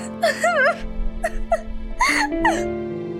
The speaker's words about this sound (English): Only then could she go to her dusty loft and cover herself with a torn blanket, sobbing as she thought of her mother.